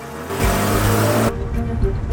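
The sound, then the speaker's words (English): A car driving off, a loud engine rumble with a steady low hum that cuts off abruptly partway through, leaving quieter background noise. “With a sigh, Harry checks his watch and drives off.”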